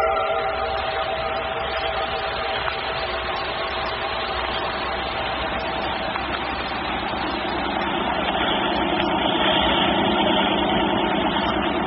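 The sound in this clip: Steady drone of a motor launch's engine running at an even pace, a continuous low rumble with a hum and no breaks, heard alone without talk.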